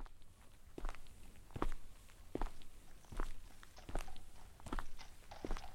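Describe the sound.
Footsteps walk along a city street at a steady, even pace, about seven crisp steps over quiet background noise.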